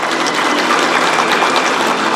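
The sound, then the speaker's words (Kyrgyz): Warm applause greets two heads of state as they enter together at the opening ceremony of a China–Russia year in Beijing's Great Hall of the People, a loud, dense, unbroken wash of clapping. “Эки мамлекет башчылары кызуу кол чабууларынын коштоосунда майданга чогуу кирди.”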